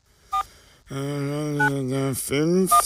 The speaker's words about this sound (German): Jetzt muss ich da mal kurz beim Doktor anrufen.